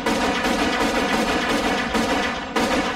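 Machine gun fire in a military setting: loud, rapid, continuous bursts of shots with barely any gap, one short dip in intensity near the end before the firing resumes.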